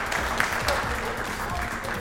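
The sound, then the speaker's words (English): Audience applause after first-place winners are announced at a competition prize giving: dense, steady clapping from many hands that keeps an even loudness throughout. “Applause.”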